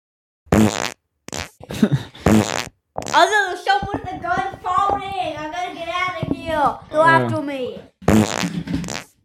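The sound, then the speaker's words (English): A fart sound effect plays as several short bursts, with one long sputtering stretch in the middle and a final short blast, with gaps of silence between them. “You hear a fart. That's the wrong sound effect.”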